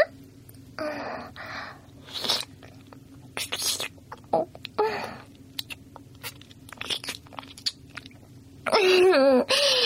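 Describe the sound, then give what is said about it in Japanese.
Wet licking and mouth sounds as spilled sake is licked from someone's lips, with many soft smacks and clicks amid close whispery breaths, followed by a louder voiced burst at the end. “君の口元からお酒こぼれちゃってるよ。それも綺麗に舐め取ってあげるからね。”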